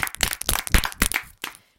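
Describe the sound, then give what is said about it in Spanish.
A small group claps in a quick, uneven burst. The sharp individual claps cluster closely together, then thin out and stop after about a second and a half. “¡Aplausos para Flow Navi!”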